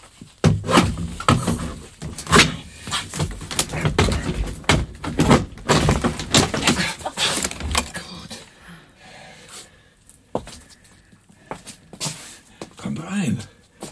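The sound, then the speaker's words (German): A garden shed door is pried upward with a spade wedged beneath it, making a dense run of knocks, creaks and scraping clatter for about eight seconds, then sparser, quieter bumps. “Klemmen Sie den mal unter die Tür und heben Sie sie hoch,”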